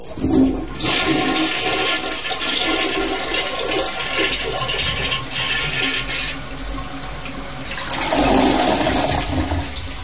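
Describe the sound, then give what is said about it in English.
A toilet flushes with loud, continuous rushing and swirling water lasting several seconds, then swells again near the end as the bowl gurgles and refills. “I'll flush you right now. Here you go.”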